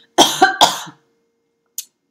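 Coughing and throat clearing: three quick, rough bursts come close together, then a single short, faint cough follows after a pause of nearly a second.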